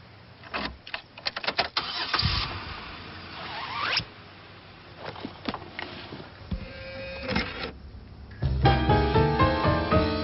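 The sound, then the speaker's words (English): A car engine cranks and catches as the ignition is turned on. Several sharp clicks and rattles come first, then the motor turns over with a rising whine and settles into a running note. “Turn on ignition.”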